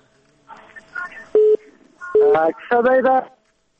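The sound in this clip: Electronic telephone tones sound as a phone call is cut off: a few short, steady beeps followed by a longer burst of overlapping tones, then the line goes quiet.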